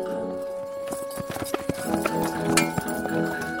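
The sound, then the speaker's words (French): A horse walks, its hooves clip-clopping in an uneven, steady sequence of many sharp knocks over a continuous low background. “il poursuivit sa route, laissant son cheval marcher au gré de sa fantaisie”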